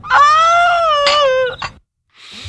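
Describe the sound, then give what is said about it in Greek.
A loud, drawn-out wailing cry holds a steady pitch for over a second, then breaks into a brief sob before falling silent, with a faint hiss at the end. “Κλάμα και οδυρμός και θρήνος.”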